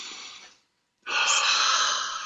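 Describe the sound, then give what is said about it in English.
Deep breaths taken slowly: one airy breath fades away, a short silence follows, then a louder, longer breath that holds steady to the end. “Let's take a breath together.”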